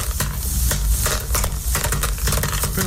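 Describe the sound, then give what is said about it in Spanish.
Corn kernels for popcorn poured into hot oil in a pan on a lit stove burner, making a loud, dense, steady crackling sizzle and rattle that runs the whole time with no voices. “enciende esa hornilla, ponga allí, caliente el aceite. Tiene que calentar por el aceite. Caliente el aceite. Allí derrama, vierte el maíz.”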